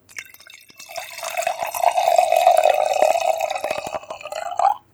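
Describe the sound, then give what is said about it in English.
Wine poured into a glass gives a steady, bright gurgling stream that swells over a few seconds. Its pitch rises briefly at the end as the glass fills, and then the pour cuts off. “It was you pouring a glass of wine.”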